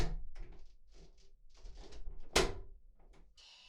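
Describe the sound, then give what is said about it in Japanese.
A wardrobe door being shut: soft handling and rustling noises, then a single sharp, bright clack of the door closing, followed by faint shuffling. “よし、扉を閉めて、”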